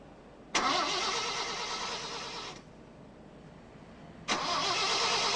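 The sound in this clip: A car engine is cranked and catches, first as a dense burst of about two seconds, then a quiet gap before the engine noise returns and holds steady to the end.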